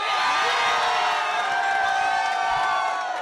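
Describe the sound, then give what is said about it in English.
Crowd in Portland cheering and whooping at news of a ruling striking down the state's gay marriage ban, a loud, dense, unbroken roar of excited voices that holds steady throughout. “Shortly after noon yesterday, the news broke to crowds gathered in Portland.”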